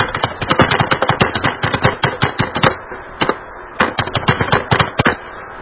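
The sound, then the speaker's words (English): Rapid typing on a computer keyboard, sharp clicking keystrokes in quick bursts. Two runs of many strokes are split by a brief pause. “I'll type my text.”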